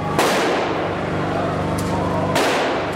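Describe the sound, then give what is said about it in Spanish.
Gunfire at a crowded funeral procession through the streets of Jenin, where many men are heavily armed. A few sharp, loud bursts break over a dense, continuous crowd din. “los disparos no dejan de sonar durante todo el tiempo.”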